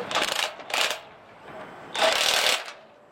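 Bursts from a power tool removing bolts from a piece of road metal bent and damaged in a car accident, during road construction work. Three loud, rattling, buzzing bursts are separated by a quieter, lower whirr.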